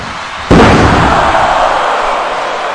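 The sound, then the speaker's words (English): A wrestler is dumped onto the ring mat with a fall-away slam during a women's wrestling match. It lands as one sudden heavy thud and is followed by a loud, sustained wash of noise that slowly fades. “Kong just dumped her over, locking up with her and tossed her with a fall-away slam.”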